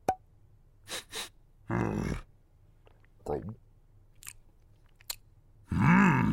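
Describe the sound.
Someone tastes a liquid from a vial, with wet mouth clicks, smacking and sipping in a few short bursts, ending in a longer voiced, breathy sound.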